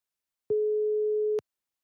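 A telephone call tone sounds as a single steady, clean beep at a medium pitch, lasting just under a second, with silence before and after.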